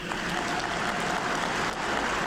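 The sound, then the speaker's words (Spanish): Pilgrims applaud the Pope at an audience: a dense, even patter of many clapping hands that holds steady throughout, with no voices rising above it. “Sonríe el Papa a los que aplauden.”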